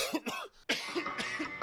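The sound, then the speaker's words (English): Someone coughs in a quick series of harsh, rough coughs with a short pause after the first pair. The coughs are fairly quiet. “And I got to stop because I'm going to start coughing right now.”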